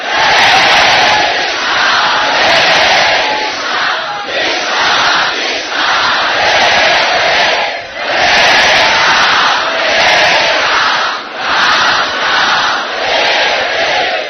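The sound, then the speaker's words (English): A vast kirtan crowd of millions chants the Maha Mantra in a deafening, roaring mass of voices. The dense chanting surges and recedes in rhythmic waves with no break. “But then the kirtan came closer. It was deafening. The sound of millions of people crying out the Maha Mantra.”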